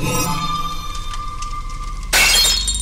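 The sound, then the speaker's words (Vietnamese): A ceramic bowl dropped onto the floor shatters in one sudden, bright crash of breaking pieces near the end, cutting in over a sustained tonal background. “Chiếc chén trên tay của Thanh rơi xuống đất mà bể tan tành, cùng với tiếng la thất thanh.”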